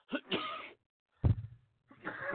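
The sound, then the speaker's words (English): Coughing comes in a few faint, rough bursts with short silences between them. One burst has a deeper, throaty onset. “It's crazy because I really have not been coughing all day. And as soon as I get on the air, here we go.”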